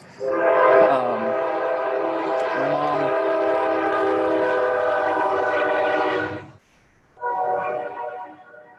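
A train passing with its horn sounding: one loud, steady, chord-like blast holds for about six seconds, then a short gap and a second, briefer blast, over a low rumble from the train.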